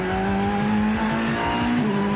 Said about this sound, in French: quel plaisir de rouler dans nos voitures.